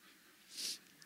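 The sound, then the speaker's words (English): Nose blowing by someone getting over a cold: a single short, airy burst of hiss that swells and fades within a fraction of a second, faint and heard alone. “Excuse me while I blow my nose, sorry.”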